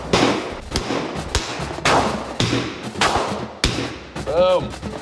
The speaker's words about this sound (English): Firing an actual for real life handgun.